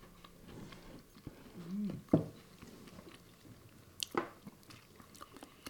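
Faint chewing comes from someone tasting Indian citrus pickles: a few soft, moist crunching bites with quiet gaps between them.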